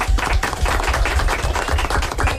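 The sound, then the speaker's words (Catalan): A few people clapping after a correct quiz answer, many distinct, sharp individual claps in a quick, uneven rhythm, fairly loud and not blended into a wash. “I dos encertat. Un aplaudiment, molt bé.”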